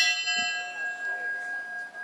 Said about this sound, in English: They rang a bell 10 times.